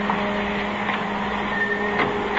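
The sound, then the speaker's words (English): Print dryer running in a photographic darkroom, a steady mechanical whir with a constant low hum and faint tonal whine, unchanging in level throughout. “Kill that dryer, will you?”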